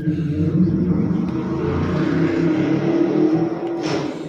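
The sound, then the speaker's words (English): Cars rev in a nearby drag race, heard as a steady low engine rumble and drone that holds throughout, with a slight swell near the end. “Oh, and there's a drag race going on. Okay, yeah, I was wondering if you heard that.”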